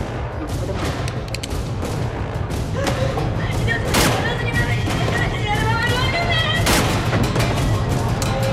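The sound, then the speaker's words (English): Pistol gunshots in a close-range killing of two people, a couple of sharp cracks cutting through a dense, noisy background. “Shot both of them clinically through the head, he plants the gun in the woman's hand.”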